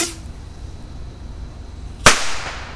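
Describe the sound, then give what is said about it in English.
A firework rocket launches with one sharp, loud crack after a quiet stretch, followed by a short fading hiss. “here's the last rocket for now.”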